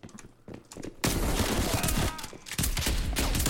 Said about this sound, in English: So I try to not pull my sights in when I'm using a shotgun. It's kind of like works out better for me when I hip fire.